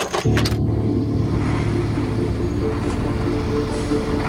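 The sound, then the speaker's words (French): A tanker truck arrives at a waste dump near Abidjan with a steady, low engine rumble and broad road noise, loud and continuous after a short clatter at the start. “À 19h06, le premier camion citerne, escorté par la société Tommy, arrive sur la décharge d'Akwedo à 12 km du port d'Abidjan.”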